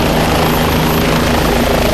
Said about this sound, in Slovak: So zlomenou nohou ju odniesol vrtulník.